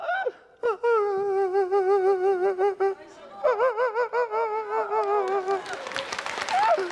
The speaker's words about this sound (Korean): 아이고 박수 소리가 작아서 더 울어야겠어.